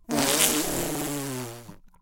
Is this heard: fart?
yes